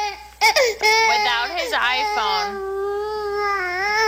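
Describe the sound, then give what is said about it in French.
A baby cries in distress after its iPhone was taken away: sustained, high-pitched wailing with wavering pitch, starting with sharp sobbing bursts and continuing loudly to the end. “Allons-y avec un bébé qui n'est pas heureux. Il n'est pas heureux parce qu'on lui a enlevé son iPhone.”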